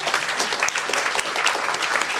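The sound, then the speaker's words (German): An audience applauds at a live talk with a dense, steady patter of many hands clapping that holds at an even level throughout without dying away. “kleinen Applaus vielleicht nochmal”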